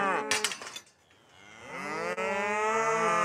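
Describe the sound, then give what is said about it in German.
A herd of cattle, with a one-tonne bull among them, mooing: a few deep, overlapping lows at the start, then one long, sustained moo that swells and carries to the end. “Die Herde um Bernie kommt Isa immer näher.”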